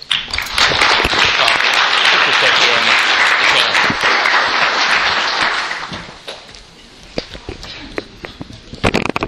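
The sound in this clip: Loud, dense audience applause in a church welcoming a speaker, steady for several seconds and then dying away after about six seconds, leaving scattered claps as a voice begins to speak.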